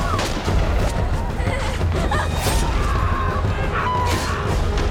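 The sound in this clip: Rocket fire and explosions in a war film battle scene; a dense, continuous barrage of loud bangs and blasts with no pause.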